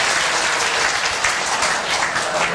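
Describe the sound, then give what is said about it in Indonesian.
Audience applause fills a lecture hall at a doctor's talk, a dense, steady, loud patter of many hands clapping without pause and with no voices over it. “Tepuk tangan dengan.”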